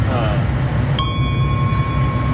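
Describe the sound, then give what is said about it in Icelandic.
A ship's bell struck once. Its clear metallic ring sustains for well over a second above a loud, steady rumbling background noise. “Það skipsbjalla, það verður að vera það.”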